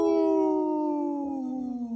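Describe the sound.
A wolf howls in one long, sustained, smooth tone that slides gently downward and fades toward the end.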